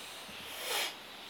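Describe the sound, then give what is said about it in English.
A single nasal breath during alternate-nostril breathing practice, inhaling through one nostril and exhaling through the other: a soft, airy hiss that swells and fades within about a second, faint and alone. “You inhale through the right nostril and exhale through the left. Inhale through the right, exhale through the left.”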